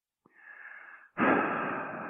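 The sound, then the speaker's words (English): A person takes an audible, slightly wheezy breath: a softer airy breath sound is followed right away by a louder, longer rush of air. There is no talk. “And I'm taking a breath for spirit to come in so I can give a clear message here.”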